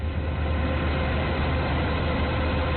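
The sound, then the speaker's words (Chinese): Steady, heavy engine drone of a combine harvester working at full power in a golden corn field, with transport vehicles following. The low rumble runs loud and unbroken throughout, with no talk. “走进山西大同市云冈区西海岭乡泰善村，连片玉米田里满目金黄，收割机正开足马力作业，转运车辆紧随其后”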